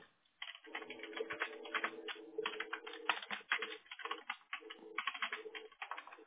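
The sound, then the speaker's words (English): Someone types a note on a computer keyboard, with many fast, light keystrokes clattering in a steady, rapid stream that pauses only briefly, all quite faint, while a low steady tone runs underneath. “Let me just type in this note to her.”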